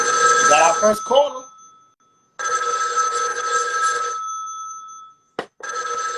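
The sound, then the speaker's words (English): A telephone rings for an incoming caller on a call-in talk show. A voice speaks briefly first, then a loud electronic ring sounds in two bursts separated by a short silence. “Keith Simmons is calling in.”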